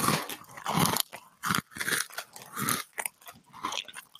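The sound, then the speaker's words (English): Crunchy bites and chewing on an Oreo cookie, a few loud crackling bursts separated by short pauses, with no talking. “you're not supposed to bite into it. That's not how you eat an Oreo.”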